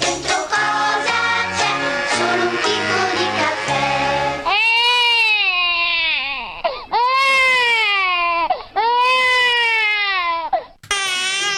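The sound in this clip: A baby cries after waking up, with a few loud, long, high-pitched wails that rise and fall. Short breaks separate the wails.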